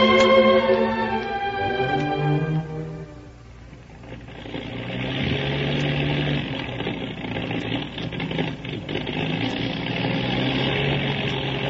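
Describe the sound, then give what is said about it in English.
A faltering motor engine that sounds conked out runs with a rough, steady rumbling drone that holds at a fairly loud level, with no talk over it. “I think that motor is really conked out, judging by the sound of it.”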